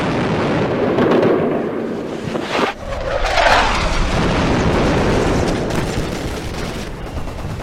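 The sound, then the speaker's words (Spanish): Heavy rumbling explosions from the 1982 British bombardment of Puerto Argentino. A dense, continuous roar of overlapping booms runs throughout, dips briefly, then surges again, with no talk. “Siguen las explosiones.”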